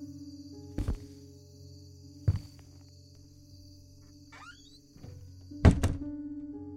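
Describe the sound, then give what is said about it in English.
A door is shut with a few heavy, dull thunks spaced apart over a steady low hum; the last thud is loudest and rings on briefly. “I need to shut that door.”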